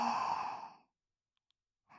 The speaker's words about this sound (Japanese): 吸って。吐いて。